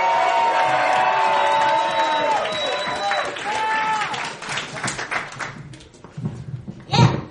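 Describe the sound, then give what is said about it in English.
Audience cheering, whooping and clapping to welcome a first-time spoken-word performer at an open-mic event. Loud, dense crowd noise with shouting voices that gradually thins, then a brief burst of renewed cheering near the end. “Make some noise! Make some noise for Blanca, ladies and gentlemen!”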